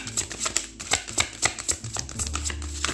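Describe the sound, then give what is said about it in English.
Oracle cards being shuffled by hand make a steady run of many quick, papery riffling and flicking bursts that overlap into a continuous rustling texture, with no talking. “That noise you hear is me shuffling.”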